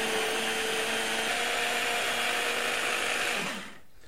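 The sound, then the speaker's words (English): A food processor blitzes slightly cooled cooked livers into a puree before butter is added: a loud, steady motor whir that holds for about three and a half seconds, then winds down. “I've just let it cool a little bit so it's not red hot going into my food processor and I'm going to blitz it up.”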